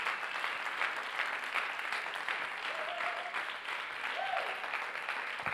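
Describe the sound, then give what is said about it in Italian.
Applause from an audience rising to its feet at a Sunday church service, a dense, even patter of many hands clapping continuously for several seconds. “Dobbiamo alzarci in piedi e fare un grandissimo applauso per ognuna di queste persone, per onorarle.”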